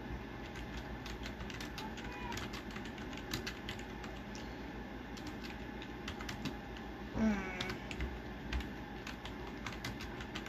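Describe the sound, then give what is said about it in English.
Soft, rapid keystroke clicks of someone typing a message, many faint taps in an uneven stream over a low, steady background. “I'm typing a message.”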